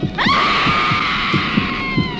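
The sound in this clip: A long, piercing scream from a horror film trailer, starting with a sharp upward swoop and then held loud and steady at a high pitch for about two seconds.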